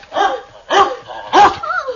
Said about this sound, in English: what a ferocious dog.